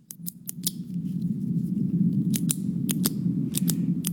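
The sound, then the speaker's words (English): A click pen being clicked repeatedly: a quick run of four sharp clicks at the start, then, after a pause, three pairs of crisp clicks over a steady low hum. “The old pen clicking.”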